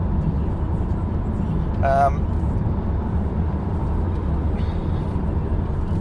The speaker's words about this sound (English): And I'm driving along a road